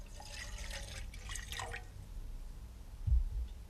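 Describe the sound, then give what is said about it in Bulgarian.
Wine is poured at a banquet table, a faint liquid trickle and splash in the first part, then near-silence and a soft low knock near the end. “Виното, господарю? Налейте.”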